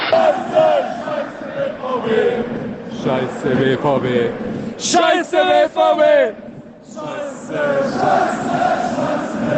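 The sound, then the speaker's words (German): Football crowd chanting in the stadium during a VfB Stuttgart match, recorded by a fan in the stands: loud massed voices shout together in rhythmic bursts, with brief dips between phrases. “Tja, so war dann die Atmosphäre gestern Abend im Stadion.”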